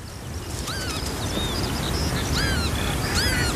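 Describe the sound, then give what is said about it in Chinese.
Shrill, slurred whistling calls of a northern lapwing pair tending two chicks sound out several times over a constant low rumble. “一对凤头麦鸡正辛勤地照料着两只雏鸟，”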